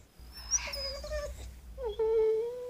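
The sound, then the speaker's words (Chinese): A dog whimpers in two drawn-out, high, tonal whines. The first wavers and drops, and after a short gap the second holds a steadier pitch. “哦，盼秋，狗狗可不能多愁善感。”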